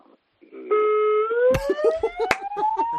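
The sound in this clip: A siren sounds from a parked car: a steady electronic tone that breaks into a long, rising wail, with a few sharp clicks and knocks over it.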